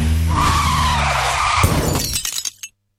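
A car's tires skid with a long, loud squeal, which ends in a crashing impact and scattered clattering debris before the sound cuts off abruptly into silence.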